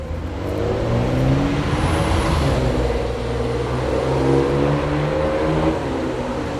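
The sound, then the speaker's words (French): Engine hum from a black Ferrari stopped at a traffic light on a deserted street, a steady low rumble that swells slightly now and then and holds throughout, with no talking. “Et il n'y a personne dans Neuilly à part une Ferrari noire là, arrêtée au feu.”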